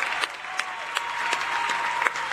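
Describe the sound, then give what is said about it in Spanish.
Crowd applause for political candidates: dense, steady clapping throughout the brief span without a pause. “A todos nuestros candidatos, un aplauso grande.”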